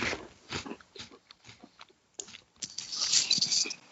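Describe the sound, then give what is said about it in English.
Chewing of a matcha and cherry blossom flavored snack, with soft crunchy bites and mouth noises coming in irregular bursts, growing denser and brighter toward the end. “I'm going to eat it. Okay. I'm going to eat it on its own, and then I'm going to try it with milk.”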